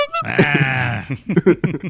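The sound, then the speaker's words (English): A little novelty horn sound effect: one nasal, buzzy held tone lasting close to a second, followed by several shorter choppy blasts. “The little horn gimmick.”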